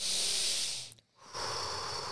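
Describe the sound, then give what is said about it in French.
A person imitates stressed breathing: a long, forceful hissing breath, a short silent pause, then another harsh, airy breath, loud and alone. “Je respire comme ça. Puis je rencontre quelqu'un que lui est habitué de respirer de même. Stressé, là.”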